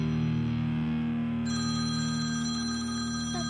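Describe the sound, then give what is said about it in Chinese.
An incoming call's mobile phone ringtone plays as steady electronic tones, and a brighter, higher layer of notes joins partway through, sounding alone at an even level with no talking. “大叔，你老婆打电话给你。”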